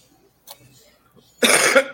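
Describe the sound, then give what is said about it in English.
Coughing as if choking: a brief cough, a short pause, then a louder, harsher burst of coughing lasting about half a second, with no other talk. “Excuse me. Am I choking?”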